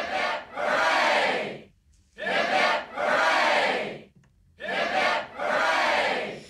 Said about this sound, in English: here's some three cheers for Captain Cook, who got us where we are today, and also to all of now.